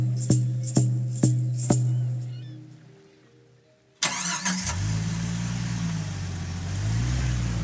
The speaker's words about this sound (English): Starting from the Comox Valley, we drive a bumpy 5 hours down a remote logging road.